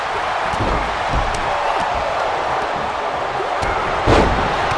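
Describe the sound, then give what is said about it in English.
A wrestling slam from the video game WWE 2K23 lands as a single heavier thud near the end, over a constant roar of arena crowd noise that runs through the whole clip. “Oh, and Yoko with the first slam on Brock.”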